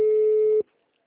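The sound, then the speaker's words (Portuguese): A telephone line tone on a call placed to a hospital: one steady, fairly loud mid-pitched beep that lasts about half a second and then cuts off into silence. “Ele ligou para o Hospital Santa Casa.”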